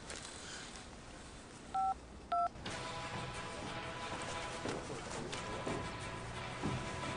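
A telephone number being dialed: two short, clear dual-tone beeps over a steady hiss, followed by a louder, continuous noisy texture.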